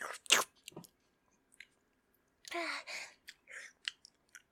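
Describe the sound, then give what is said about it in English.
Biting and chewing food, eaten quickly, with a few crisp, crunchy bursts separated by brief pauses, then a denser run of chewing noises. The sounds are moderately loud against quiet gaps, and no one talks. “I'll eat as fast as I want to eat. I don't care if my stomach hurts me.”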